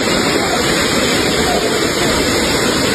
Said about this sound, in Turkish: Sağanak nedeniyle çatısı delinen salı pazarını da su bastı.